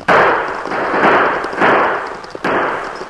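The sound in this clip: A few loud gunshots fired into the air, spread over a few seconds, each a sharp crack with a lingering tail. The shots come from riders charging toward a stagecoach.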